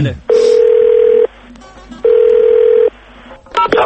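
Ringback tone on a call placed to a radio guest: two long, steady electronic tones, each about a second, separated by a pause, with a short burst of noise at the very end.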